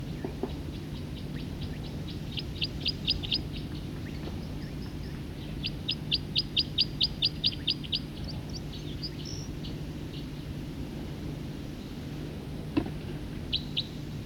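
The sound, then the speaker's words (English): A songbird sings in several bursts of rapid, high, evenly spaced chirps, with a few quiet gaps between phrases over a low steady background hum. “Same bird.”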